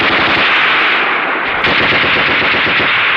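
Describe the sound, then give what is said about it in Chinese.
Sustained machine-gun fire in a battle, a dense, loud and continuous stream of rapid shots with no break and no voices. “停！停了射击！你停！ 停了射击！”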